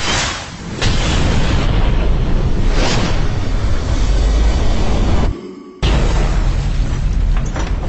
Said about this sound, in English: Retro rockets are next in 3 seconds.